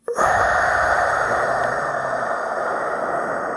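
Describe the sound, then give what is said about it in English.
Deep breathing, in through the nose and out through the mouth, heard as one long, steady airy rush that fades slightly toward the end, with no talk. “Deep breath in the nostrils, out the mouth.”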